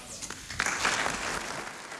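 Thunderous applause from a large assembly: dense, continuous clapping that swells early and then holds at a steady roar.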